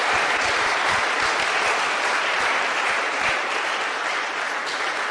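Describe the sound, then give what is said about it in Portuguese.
A church audience applauding during a campus worship service, with dense, continuous clapping that holds steady at full strength and eases only slightly toward the end. “Come on, put your hands together for the. Vamos lá, uma salva de palmas para o Senhor.”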